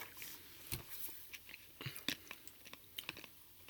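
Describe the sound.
Potato chips being chewed during a taste test: many faint, irregular crisp crunches and bites, with quiet gaps between them.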